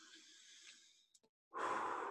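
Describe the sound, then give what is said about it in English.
A slow, deep breath drawn in and let out during a calming moment, as airy breath noise. A softer, longer breath is followed by a short silence, then a louder, rushing breath, with no talk. “breathe in with me, right? Let's do it once.”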